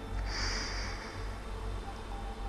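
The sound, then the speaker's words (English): A deep breath drawn in and blown out during a guided breathing and prayer exercise, heard as a soft, airy rush over a steady low hum. “take another deep breath in and blow it out.”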